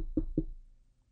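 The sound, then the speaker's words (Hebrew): Two dull knocks on a door come in quick succession, followed by a fading low rumble. “דופק בדלת, דופק.”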